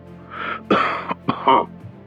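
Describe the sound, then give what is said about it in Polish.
A person clears their throat over a telephone line: a few gruff, rasping bursts, the middle two loudest, with brief pauses between and no speech. “Po drugiej stronie słuchawki ktoś odkaszlnął.”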